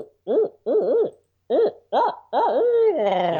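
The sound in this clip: A person imitates an owl's hooting call with a rhythmic run of wavering, rounded hoots separated by short pauses; the final hoot is drawn out and slides down in pitch.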